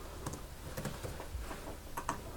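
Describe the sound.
Light keyboard typing as an address is entered into a computer form: many quick, faint, irregular key clicks tapping alone over a low steady background hiss.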